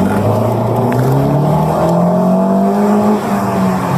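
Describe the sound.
Car engine accelerating hard, a police vehicle in a street race: a loud, continuous roar whose engine pitch climbs steadily throughout, with no voices.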